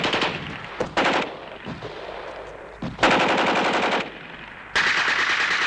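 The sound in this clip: Bursts of automatic gunfire shot from behind a tree during a fight with partisans. Several loud, rapid-fire volleys break off and start again abruptly, with no voices between them.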